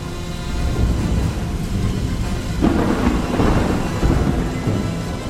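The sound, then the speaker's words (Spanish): A thunderstorm rolls in with a continuous low roar of thunder and rain, swelling into a few louder crackling bursts in the second half. “me llegó a mis oídos el sonido de la salvación. Más vale tarde que nunca. Era la tormenta.”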